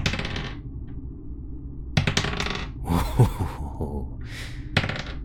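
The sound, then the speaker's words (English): Dice rolling and rattling: a few clattering bursts with short gaps between them, fairly loud and without speech. “I'm rolling my dice.”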